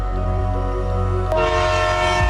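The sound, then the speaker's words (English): An Amtrak Cascades passenger train sounds its horn. A loud, sustained, steady tone shifts slightly partway through, over a low rumble. “With 12 Amtrak Cascade trains between Seattle and Portland, you're covered for travel morning, noon, and night.”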